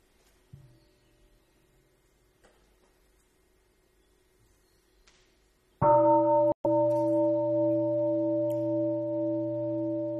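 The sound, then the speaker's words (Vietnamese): A meditation bell during a Buddhist dharma talk is struck once after a quiet stretch, ringing out as a loud, clear tone with several steady overtones that sustains to the end. “Mình nghe một tiếng chuông, mình thở để cho các vị thông dịch cũng được thở.”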